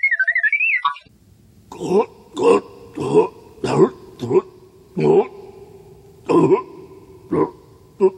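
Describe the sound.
Throat clearing comes as a long run of short, rasping voiced hacks with a low buzzing tone, repeated at a fairly even but slightly uneven rhythm after a brief high warbling tone at the start.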